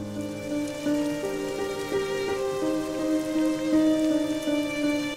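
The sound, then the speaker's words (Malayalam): Rain sound effect for a drama scene: a steady, even patter and hiss that runs without a break, with a faint sustained melodic tone underneath. “ഈ മഴയത്ത് കുടയും പിടിച്ച് എങ്ങോട്ടാ”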